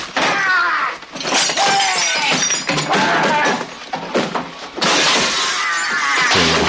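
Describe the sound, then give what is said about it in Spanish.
Furniture thrown out of windows crashes and breaks in a dense, loud run of smashing, splintering and shattering impacts. The racket lasts the whole clip, with only brief dips in intensity. “Los fascistas comienzan a tirar los muebles por las ventanas.”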